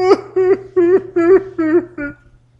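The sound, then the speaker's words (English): A voice imitates whining with six nasal, whimpering syllables in a steady rhythm, each bending downward in pitch at its end, loud and alone before it trails off. “After 15 years of doing that, I did my monthly whining dance.”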